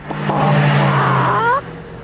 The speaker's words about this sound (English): The new Toyota Camry is powered by a twin cam, fuel-injected, multi-valve engine.